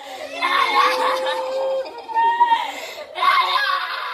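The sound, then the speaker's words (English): Sisters of an Indian soldier killed in a clash with China wail in grief, high-pitched sobbing cries rising and breaking in uneven bursts, with a short gap before a final loud outburst. “And that's the sound of the sisters of one of the slain soldiers wailing.”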